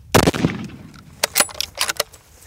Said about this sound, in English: Again, second shot, doesn't kill it.